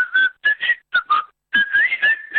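A person whistles a lively theme tune alone, in short, clear, bright phrases of quick notes broken by brief pauses.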